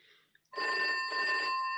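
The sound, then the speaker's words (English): Telephone bell ringing: after a brief quiet moment with a couple of faint clicks, one continuous, loud, buzzing metallic ring begins and holds steady to the end. “Quick, we must ring up the fire brigade. We'll phone from my office.”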